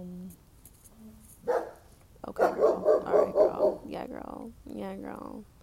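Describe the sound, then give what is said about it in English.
A neighbor's dog barks in a quick, even run of several sharp barks, with a person talking just before and after. “Okay, the neighbor's dog is barking.”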